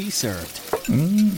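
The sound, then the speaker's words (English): A burger sizzles on a restaurant grill, a steady frying hiss running under a person speaking briefly and a short murmured reply. “And that's a burger hot off the grill,”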